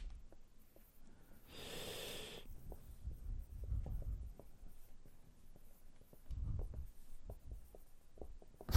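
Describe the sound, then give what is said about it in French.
Handwriting on paper makes faint, irregular scratching strokes in short bursts. A brief soft hiss and a few low, muffled thumps sit among the strokes, with no talk. “Si les gens se disent s'il y a un problème de son, pas du tout, c'est juste qu'on est en train d'écrire.”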